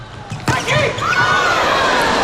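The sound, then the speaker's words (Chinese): A volleyball is struck on a serve by China's Wang Yuanyuan in a match against Iran: one sharp hit rises from a steady crowd murmur while a commentator talks. “接下来中国队是轮到了王媛媛的发球， 伊朗一传到位，”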